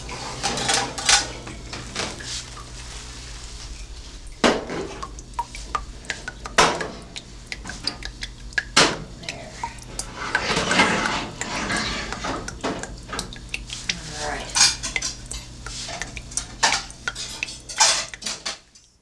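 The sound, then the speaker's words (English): Cutlery clinks and scrapes against dishes as meat legs are cut at a meal: many irregular clatters and taps over a steady low hum, with no talking. “Okay, now I'm going to cut this off.”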